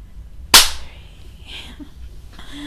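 A hand slaps bare skin once in a single sharp, loud crack that decays quickly, followed by quiet.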